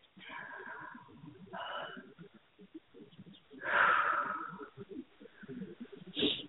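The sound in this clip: A deep breath, drawn as one long airy swell in the middle, with a shorter breathy burst near the end and soft background sounds throughout.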